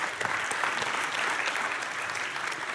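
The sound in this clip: A church audience claps in steady, even applause to welcome a family coming forward, keeping a dense patter at constant loudness throughout.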